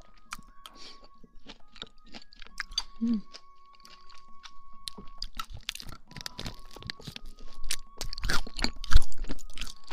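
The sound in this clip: Crunchy chewing of a low-fat protein bar: many crisp, irregular bites and crunches that grow louder and denser toward the end, with brief soft sounds between them.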